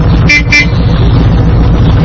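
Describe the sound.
A car horn gives two short, quick toots over a steady low rumble.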